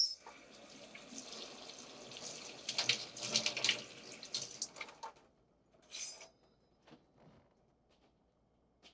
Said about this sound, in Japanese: 今度は周りに添えるミニトマトを準備していくね。まずは水で洗ってと。